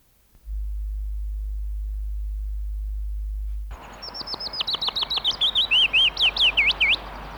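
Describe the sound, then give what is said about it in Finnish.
A common chaffinch singing, preceded by a steady low electrical hum. The song then enters as a rapid series of bright, repeated chirping notes, stepping downward in pitch and growing louder toward the end. “Peippo.”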